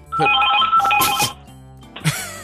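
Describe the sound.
A landline telephone bell rings loudly in two bursts, a long metallic trill followed by a shorter one.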